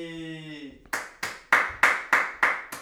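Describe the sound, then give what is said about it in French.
One person claps alone in lockdown-style applause. Six sharp, evenly spaced claps follow a brief sung or hummed note. “C'est les applaudissements de confinement. C'est ça. Tout seul.”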